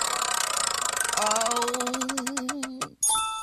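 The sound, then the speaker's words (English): A prize wheel spun during a karaoke song-picking game clicks rapidly, its ticks gradually spreading apart as it slows to a stop over a sustained tonal hum. A bright new tone starts just after the wheel stops. “Do I get to spin this thing? Spin the wheel.”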